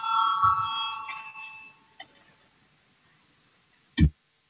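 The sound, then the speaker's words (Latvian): Voting bell signal in a parliament chamber before a vote: a bright electronic ringing tone with layered overtones lasts about a second and a half and fades, followed by a faint click and a single low thump. “Lūdzu zvanu”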